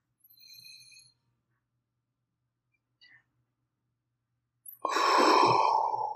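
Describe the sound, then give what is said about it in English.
A deep breath drawn in and let out, heard as a single loud, airy rush of breath near the end after mostly quiet, with a couple of faint brief sounds earlier. “take a deep breath right now.”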